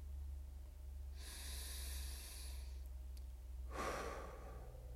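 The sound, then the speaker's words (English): Slow, deep breathing in during a guided breathing exercise: a long, soft, airy inhale followed by a shorter breath, both faint over a steady low hum, with no talking. “As you breathe in, distend in through the hands and through the abdomen.”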